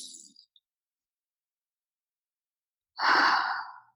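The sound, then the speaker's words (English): A breath exhaled through the nose during a guided breathing exercise, a soft airy rush lasting nearly a second after a long near-silent pause. A faint brief breath is at the very start. “So we'll all breathe in through our nose and breathe out.”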